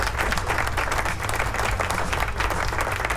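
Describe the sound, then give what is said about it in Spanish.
Applause from an audience on cue, a dense steady clapping that holds at an even loudness throughout, with no talk over it. “¡Aplauso, please!”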